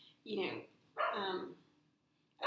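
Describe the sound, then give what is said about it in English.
A dog barks a few times in faint, drawn-out bursts separated by short quiet gaps. “That's my dog.”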